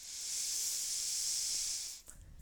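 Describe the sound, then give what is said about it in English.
Slow, deep breath out during a mat stretching exercise in a ragdoll forward fold. The soft, airy hiss rises gently, holds for about two seconds, then stops abruptly, leaving faint low rustling. “And long, slow breath out.”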